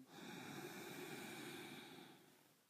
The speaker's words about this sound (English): let's just take another slow, deep breath in.